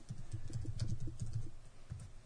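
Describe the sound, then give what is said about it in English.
Typing on a computer keyboard into a search box: many quick, uneven keystrokes tapping in a steady stream, fairly faint, with no voices. “And then type in like Second City.”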